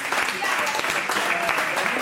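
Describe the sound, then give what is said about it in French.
Studio audience applause rewards a correct answer on a quiz show, a steady burst of many hands clapping at an even level while a voice talks over it. “On peut l'applaudir, parce que c'est la bonne réponse.”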